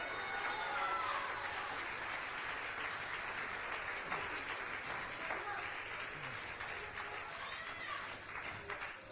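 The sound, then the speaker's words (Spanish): Applause from a church audience during a sermon, a steady, dense wash of clapping that fills the whole stretch at a fairly soft, even level. “Dale el aplauso a Cristo, que Él se lo merece.”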